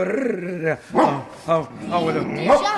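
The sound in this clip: A wolf growls in a winter tale set beside a sled, with a few sharp harmonic snarls and yelps over a rumbling vocal tone, mixed with speech.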